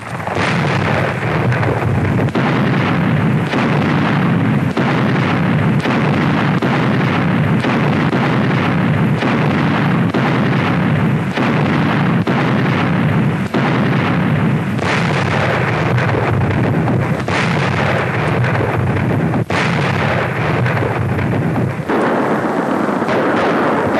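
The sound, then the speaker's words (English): Artillery firing point blank at an enemy stronghold as a battle draws to a close: a loud, dense barrage of booming blasts with many shots overlapping in a continuous roar. No voices are heard. “Russian artillerymen fire point blank at the last stronghold of Germany's doomed battalions.”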